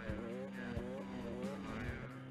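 A motorbike engine revs up and down in quick surges as the rider pulls wheelies at a stunt spot.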